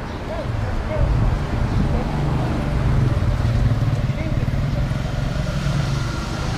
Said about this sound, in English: the bikes. So loud.